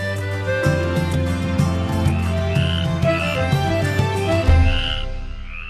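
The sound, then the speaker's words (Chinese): Frogs croaking in a dense, continuous chorus of overlapping low, pulsing croaks, with higher chirping calls rising above them throughout. “我可不可以在你这儿听听青蛙叫，过过干瘾也好啊？”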